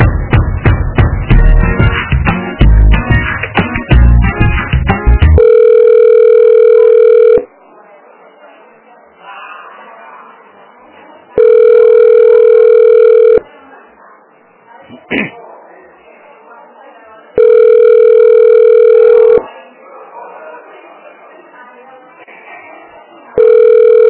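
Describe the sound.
Telephone ringing tone heard while a call is transferred to the nursing staff: three long, steady buzzing tones at even intervals, with a fourth just starting. Quiet line noise fills the gaps, and a voice speaks at the start.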